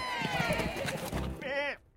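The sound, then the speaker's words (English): A sheep from a flock bleats at a barn, one short wavering bleat near the end that follows a busy, dense stretch of other sounds. “The flock greets Sean back at the barn.”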